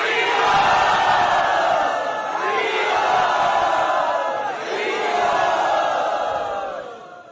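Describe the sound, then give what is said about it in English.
A large crowd cheers and roars enthusiastically to welcome a swami at a yatra gathering, a loud sustained mass of shouting voices that surges in a few waves over several seconds. “Let us welcome with tumultuous enthusiasm His Holiness Satchidananda Swami Maharaj.”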